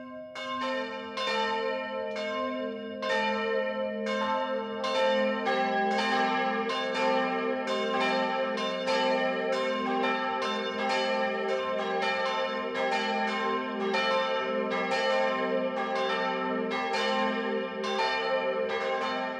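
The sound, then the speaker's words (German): Midday church bells ring from a Catholic filial church in a village in Upper Bavaria. Many overlapping strikes form a loud, steady, resonant peal that rings on without a break. “Das Mittagsläuten kommt heute von der katholischen Filialkirche St. Jakobus im oberbayerischen Piesenkamm.”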